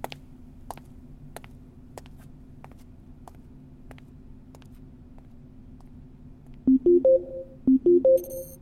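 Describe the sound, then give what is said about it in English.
A phone rings on a computer terminal after a call is dialed: faint regular ticking over a low steady hum, then two short bursts of stepped electronic ringing tones near the end. “All you have to do is dial.”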